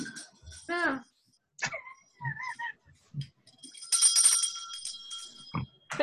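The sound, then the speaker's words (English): A small bell falls off a desk with a bright, high metallic jangle that rings for about a second. A voice is heard before it amid other scattered sounds. “Oh, my bell fell off my desk.”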